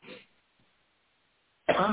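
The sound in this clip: A short, sharp cough from someone with an itchy throat bursts out near the end, after a faint, brief sound at the start and a long stretch of near silence.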